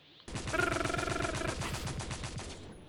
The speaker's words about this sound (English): Santa Claus dodges all of the bullets